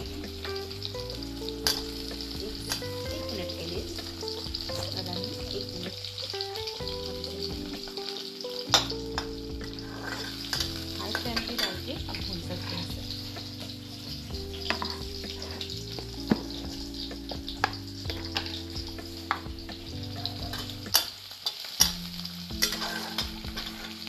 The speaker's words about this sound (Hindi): हरी मिर्ची एक आप चाहें आपको अगर तीखा पसंद है तो दो भी डाल सकते हैं आप पूरा हल्का भूनना है